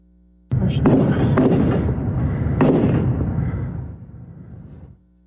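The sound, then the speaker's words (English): Gunshots from a large rifle ring out at a public shooting scene: a few sharp, loud reports cut through a continuous roaring wash of noise that fades out toward the end. “You can see a young man shooting in the area with that large rifle in his hand.”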